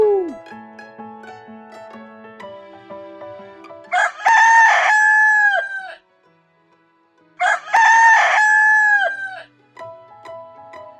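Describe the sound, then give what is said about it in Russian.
A rooster crows twice. Each loud, drawn-out cock-a-doodle-doo call is separated by a brief silence, with quieter tonal sounds before and after. “Петушок говорит кукареку. Кукареку. Кукареку.”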